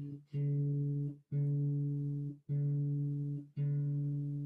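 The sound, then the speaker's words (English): Plant music plays on a harp setting: four sustained plucked notes at the same low pitch, each with a sharp onset and a brief drop before the next note. “This is the sound of the harp.”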